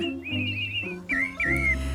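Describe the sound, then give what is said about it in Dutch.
A birdsong jingle on a Dutch radio program: high, warbling whistled trills in two phrases over sustained low musical tones. “Doe ik eerst de vogels even tussendoor. Die moeten natuurlijk ook nog.”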